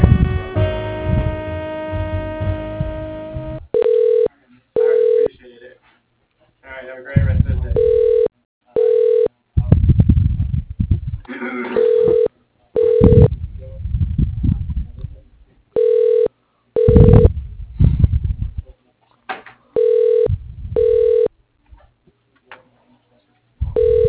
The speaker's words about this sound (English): Let me switch you over to his voicemail 1 second.